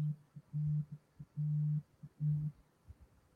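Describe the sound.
Telephone line signal as a call comes in: quiet, low, steady tone bursts, three longer ones with short blips between them.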